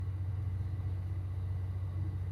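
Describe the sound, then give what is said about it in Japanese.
A locomotive running on a non-electrified railway line gives a steady, low engine rumble. It stays even throughout, with no voices. “初めてですこの音。機関車交代までの短い区間だけだってじっくり聞けるのすごく嬉しい。”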